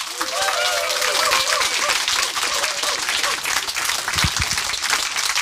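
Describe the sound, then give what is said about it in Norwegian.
An audience gives loud, sustained applause for a novelist being welcomed onto a literature programme. Dense clapping runs steadily throughout, with a voice briefly heard over it. “Gi Amalie Kasin Lerstang en kjempeapplaus.”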